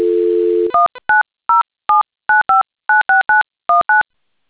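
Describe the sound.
Steady telephone dial tone, then a rapid string of short, clean two-note keypad beeps evenly spaced at a brisk rhythm, one after another with silent gaps and no voices.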